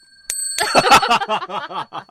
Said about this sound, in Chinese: 要不要打个敲个铃铛呢？ 我来敲，我来敲。